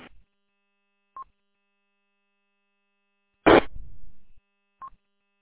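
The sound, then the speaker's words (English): Telephone dialing tones: a few short, high beeps spaced apart, with one longer noisy burst between them, against near silence. “I believe we are logged in, waiting on your call. Copy, Reed. We are dialing now.”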